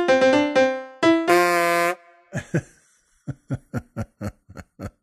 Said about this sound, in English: that's a horn. You want to get out of that guy's way if that's the sound of his horn.